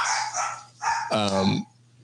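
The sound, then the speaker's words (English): Dogs barking and vocalizing in a few short bursts, followed by a longer, tonal yowl that slides down in pitch at the end. “my dogs agree.”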